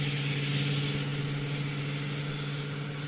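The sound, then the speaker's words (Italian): Steady vehicle engine drone from a Hitchcock film scene, a low, even hum with a strong steady tone and broad noise, holding at a constant moderate level throughout with no voices. “Ora attenzione, ne arriva un terzo. Ora, se il terzo veicolo passasse nello stesso modo, noi diremmo vabbè”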